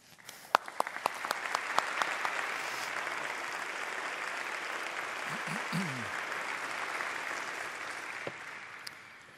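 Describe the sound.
An audience at a Christian gathering applauds to welcome a preacher: dense, steady clapping that builds quickly and holds for about nine seconds, with a brief voice partway through.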